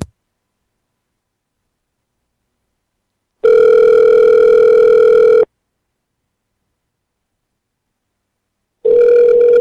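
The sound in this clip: Telephone ringing on a prank call: two long, loud electronic ring tones with a steady buzzing pitch, separated by silence, the second cut off at the end.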